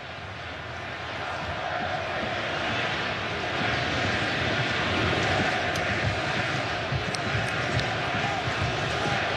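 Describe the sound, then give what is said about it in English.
A steady roar of crowd noise from Australian football fans at a World Cup match, swelling slightly partway through and staying dense and broad throughout, with no clear individual voices. “That was the Australian fans down to the right making a little burst of noise.”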